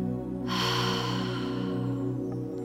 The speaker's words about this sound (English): Take a double inhale and tense all of the muscles in your body. Double exhale and release.